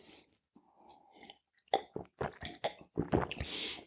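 Chewing on a piece of bread, with soft wet mouth sounds at first and then a run of close, irregular crunching bites and squishy chews, fairly loud and alone without talk.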